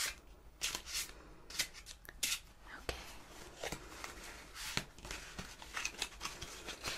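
Playing cards are handled and a single card is picked from a deck. Many soft, crisp rustles, flicks and slides come in irregular bursts, quiet and with no talk over them.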